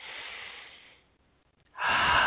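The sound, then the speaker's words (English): A deep breath is taken during a guided relaxation. A long, airy breath is followed by a quiet pause of nearly a second, then a louder, forceful breath begins. “Nice deep breath.”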